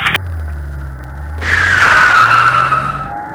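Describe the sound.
Tyres skid as an Austin car speeds off. A low engine hum gives way to a sharp onset, then a loud, high tyre screech holds for about two seconds before easing off.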